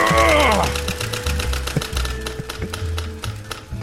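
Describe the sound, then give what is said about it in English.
A large prize wheel spinning, giving a long run of rapid, sharp ratcheting clicks in an even rhythm over a low rumble. “Shall I spin the accursed wheel of the rest of the world? The other wheel we had built for this very reason.”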